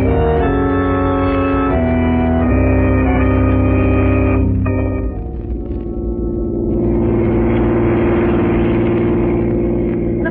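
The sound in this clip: A car engine drones steadily as the car drives along. Held tonal chords come first and shift a few times before the engine noise takes over, continuing loud and even.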